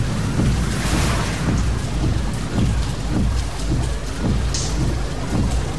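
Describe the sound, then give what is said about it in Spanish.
Rain falls at night, heard from inside a car: a loud, steady hiss of dense drops drumming on the vehicle, with soft low thumps beneath and no voices. “Es de noche y llueve.”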